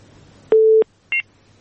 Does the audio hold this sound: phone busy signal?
yes

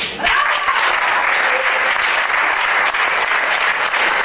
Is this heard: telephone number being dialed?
no

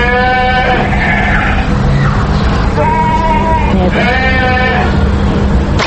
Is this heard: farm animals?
yes

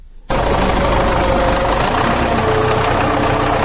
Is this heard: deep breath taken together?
no

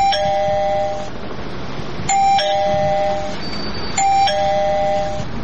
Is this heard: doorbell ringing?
yes

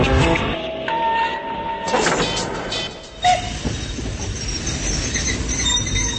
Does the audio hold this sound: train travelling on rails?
yes

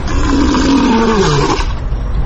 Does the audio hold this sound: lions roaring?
yes

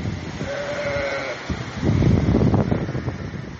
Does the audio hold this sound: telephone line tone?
no

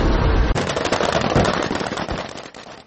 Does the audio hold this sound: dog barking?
no

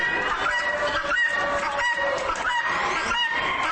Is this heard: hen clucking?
yes

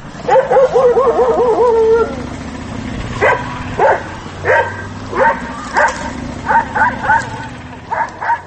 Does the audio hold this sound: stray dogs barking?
yes

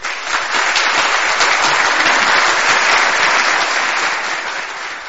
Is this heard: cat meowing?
no

